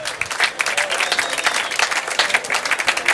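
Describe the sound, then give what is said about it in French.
Steady, dense applause from an audience at an evening show at a Théâtre Antique, with continuous clapping throughout and no break. “Sans transition, je vous demande d'applaudir deux personnages.”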